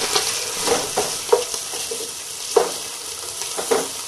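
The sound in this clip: Minced meat sizzling in a frying pan as it is stirred loose into separate crumbs; a steady hiss with several sharp scraping stir strokes at an uneven rhythm, no talking.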